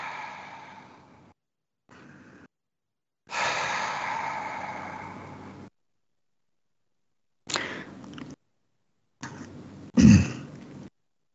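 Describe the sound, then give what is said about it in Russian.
During a relaxation breathing exercise, someone breathes in through the nose and out through the mouth in a few soft, airy breaths of different lengths. One long exhale stands out, and the sequence ends with a short throaty rasp. “Выдохните все напряжение, которое у вас может скопиться внутри. Вдыхаем через нос, выдыхаем через рот.”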